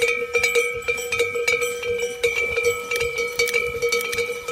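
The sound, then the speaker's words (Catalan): Shepherds' cowbells (esquellots) ring continuously in a bright, metallic jangle, with many overlapping irregular clanks over a steady ringing tone and no voices. “Sonen els escallots per iniciar aquest treball.”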